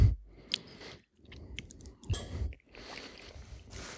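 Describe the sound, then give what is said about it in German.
Quiet, moist chewing of a layered cake of chocolate sponge, vanilla pudding and cream topped with chocolate sprinkles, in soft irregular bursts with brief pauses between bites. “Jetzt probiere ich das mal hier im Gesamtkonzept.”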